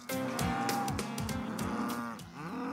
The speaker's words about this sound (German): Auf dem Sophienhof in Neustrelitz machen sich die Rinder lautstark bemerkbar.